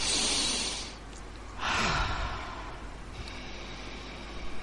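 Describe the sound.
A deep breath taken during a guided relaxation exercise: two long, airy rushes of breath, fairly loud, with a short pause between them.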